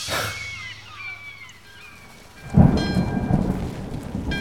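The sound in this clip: A thunderstorm with rain on a cloudy late-August day. Steady rainfall hisses throughout, and about halfway through a loud, deep rumble of thunder swells and lingers.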